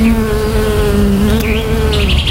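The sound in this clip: Bees buzz in a steady, unbroken drone that stays loud and even throughout, with no voices, tied to a beekeeping school in a nature reserve.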